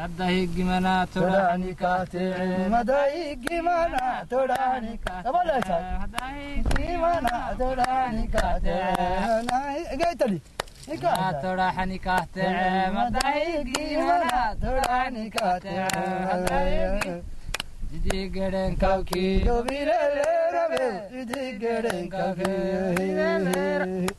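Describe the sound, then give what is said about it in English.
Two men singing in Djibouti, their voices carrying sustained, melodic lines with wavering, shifting pitch. The singing runs nearly continuously, broken by a few brief pauses. “This is the sound of two men singing in Djibouti.”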